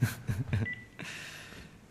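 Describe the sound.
Telephone number being dialed with DTMF tones: a few short, loud tone bursts in quick succession, then a longer, fainter tone.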